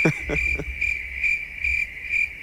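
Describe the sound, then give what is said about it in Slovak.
Crickets chirp in a loud, high-pitched steady trill, with repeated pulsing bursts of chirps rising over the continuous tone throughout. “máš pripravených cvrčkov?”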